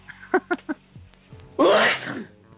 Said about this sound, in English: Bless you. Goddamn allergies. God damn, that's 4 sneezes in a row, bro.